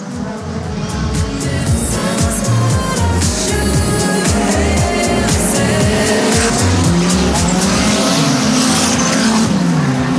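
Race cars roar around a track during a racing weekend's finals, with a continuous loud engine drone, shifting whines and repeated tyre squeal throughout, and no talking.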